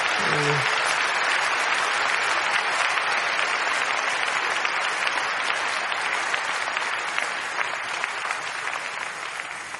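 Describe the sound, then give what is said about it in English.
A church audience applauds during a worship service, a dense, steady roar of many hands clapping at full volume that continues for about ten seconds and eases slightly toward the end. “Now, I think we should give the Lord a big round of applause for that.”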